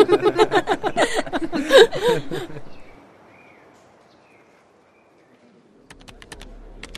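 A cash register is operated and closed: a rapid run of key clicks, then a quiet pause, then a few more clicks with a low thud near the end.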